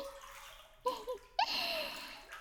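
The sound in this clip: Hot bath water sloshes softly as someone moves to climb out. A few quiet splashes come first, followed by a continuous gentle wash of moving water.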